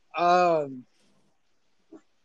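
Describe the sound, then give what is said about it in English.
A dog gives one drawn-out, tonal bark or whine that sinks in pitch at its end, followed after a pause by a brief faint sound. “My dog, please be quiet. I'm sorry about my dog in the background.”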